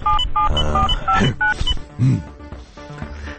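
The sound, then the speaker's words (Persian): Touch-tone beeps sound as a telephone number is dialed, a quick run of short, bright keypad tones in the first half. A busy, cluttered layer of other sound continues underneath and after the dialing. “بذار من یه زنگ بزنم به این پسری ببینم ظریف دور برش هنوز. شمارش اینه.”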